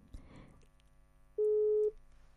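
Telephone busy tone after a call was cut off: one steady, mid-pitched beep, a pause, then the start of a second beep. A brief burst of faint noise comes before the tones.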